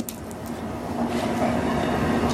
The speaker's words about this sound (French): Il y a un train. Regarde le train.